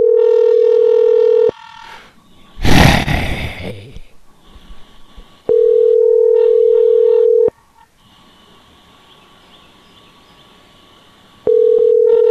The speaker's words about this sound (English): This ringtone has been auto-tuned.